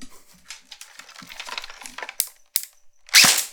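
Airsoft gun firing a BB: a single loud, sharp crack near the end, preceded by a scatter of faint clicks and light mechanical rattles.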